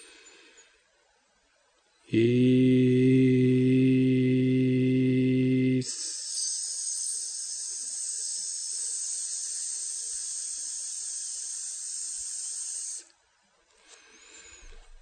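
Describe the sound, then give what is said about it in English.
A single voice slowly chants the mantra "ease" as one long breath: a strong, steady voiced vowel held for about four seconds, then a prolonged bright hiss for about seven seconds before it stops. “chant the mantra, Ease. That mantra will sound something like this.”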